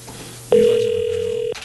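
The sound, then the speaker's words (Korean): A landline telephone tone sounds as one steady, mid-pitched, unbroken beep. It lasts about a second at a loud, even level, then cuts off abruptly. “자, 일반 전화 합니다.”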